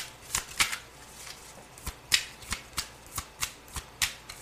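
Playing cards being shuffled and drawn from a deck, heard as a long run of crisp, papery flicks in a fairly regular rhythm with no talking.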